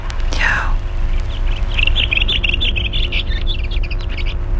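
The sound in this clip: A bird sings a rapid run of high, bright chirping notes that repeat over several seconds, above a steady low rumble, with a brief soft voice near the start.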